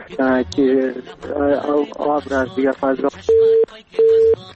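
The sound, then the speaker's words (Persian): A dropped phone call on a radio call-in show: a caller's voice breaks off and is followed by two loud, steady, evenly spaced busy-signal beeps. “متاسفانه تماس برادر ما قطع شد.”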